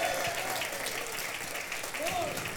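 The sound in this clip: A church audience applauds during a morning service, a steady wash of clapping that holds at a fairly low level, with voices calling out over it.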